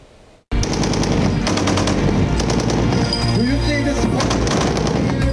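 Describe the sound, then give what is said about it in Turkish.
Rapid gunfire from the Tolga close air defense system during test firing in Konya. It starts abruptly after a brief near-silence and then keeps up a dense, loud, unbroken stream of shots. “Makine ve kimya endüstrisinin geliştirdiği Tolga yakın hava savunma sistemi Konya'da test edildi. Atış testine 24 ülkeden 64 askeri ve sivil heyet katıldı.”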